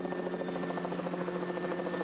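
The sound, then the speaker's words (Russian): A helicopter flies low, about 20 metres up, along a fence at the edge of a field, making a steady droning buzz with a fast, even rotor pulse. “Вертолет пролетает вдоль забора у кромки поля на высоте около 20 метров.”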